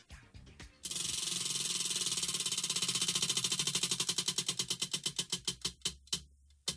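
A prize wheel spins with a rapid, even run of sharp ticks after a brief rattle, and the clicks spread out steadily as it slows to a stop.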